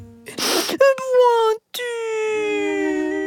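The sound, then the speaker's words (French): A small turtle cries: a breathy, noisy sob leads into drawn-out wailing cries that sag slowly in pitch, with a brief catch of breath between them. “Arrête de pleurer. Ne sois pas triste.”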